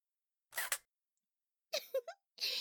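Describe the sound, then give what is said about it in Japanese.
Camera shutter clicks as a photo is taken, a few crisp mechanical snaps in short clusters separated by silence, quiet and dry. “写真を撮るわよ。 ほら、こっちを見なさい。”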